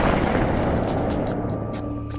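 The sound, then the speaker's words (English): Warning gunshots fired by armed guards sound as a few sharp cracks over a loud, continuous roaring background that fades slightly toward the end, with no voices. “I said warning shots only! They've been warned.”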